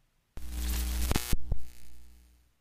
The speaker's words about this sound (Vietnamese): Ánh đèn trong quán bỗng nhiên chớp tắt, vang lên những tiếng chập điện rè rè.